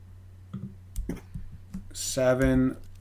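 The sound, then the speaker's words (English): A few crisp clicks of typing on a computer keyboard come in short, uneven bursts. Near the end, a voice speaks briefly over them. “Okay, let me type that in.”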